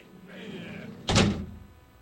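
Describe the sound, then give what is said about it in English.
A heavy door slams shut: one sudden, loud thud with a brief rumbling decay, after a quieter stretch of low background noise. “Now, let me slam big-ass door here.”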